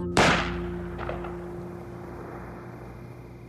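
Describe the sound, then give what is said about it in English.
A single sharp gunshot from a weapon discharged by accident cracks out near the start, then decays into a steady low background hum, with no voices. “One of them accidentally discharges his weapon.”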